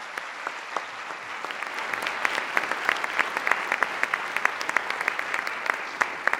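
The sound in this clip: Audience applause welcoming a speaker onto the stage before a talk on animal behavior and welfare: many dense, overlapping claps, steady and moderately loud throughout, with a few sharper individual claps standing out.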